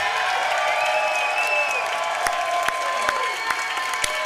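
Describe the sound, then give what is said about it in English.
A crowd cheers and applauds to welcome the president of the Kansas City Chiefs at a Chiefs fan event. The dense clapping and cheering hold steady and loud throughout, with sharper individual claps standing out near the end. “Well, that's pretty awesome. You haven't had that big a cheer since you won the Ivy for Brown as a quarterback.”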